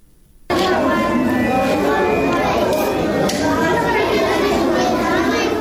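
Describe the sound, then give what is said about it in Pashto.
Children's voices fill a newly built library in Nangarhar, a dense, steady babble of many young voices talking at once that starts abruptly after a brief near-silence and stays loud throughout. “دا د هغه ماشومان غږ دی چې ننګرهار کې د جاپان هیواد په مالی مرسته نوې جوړ شوې کتابتون کې راټول شوی دی”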